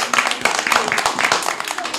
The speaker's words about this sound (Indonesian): Pintar sekali semuanya, tepuk tangan.